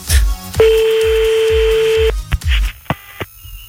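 A telephone dialing another number during a phone call. A steady electronic tone holds for about a second and a half, then a few short, sharp clicks and blips follow.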